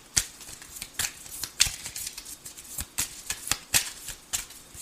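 Playing cards being handed over at a table make a run of crisp, papery flicks and snaps at irregular intervals, with faint rustling between them and no talk.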